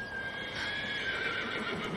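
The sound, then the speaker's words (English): A horse with a rider neighing in the distance on a freezing day: one drawn-out, high, wavering whinny, faint and alone, filling the full two seconds. “They turn to see a man on a horse in the distance.”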